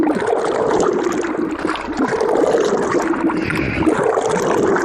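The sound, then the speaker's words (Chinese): Continuous watery churning and sloshing as paper pulp and water are stirred repeatedly in a mixing bucket, fairly loud and steady throughout with small gurgling splashes, no voices. “按比例加入清水，在搅拌桶中反复搅拌，最终化为细腻纸浆。”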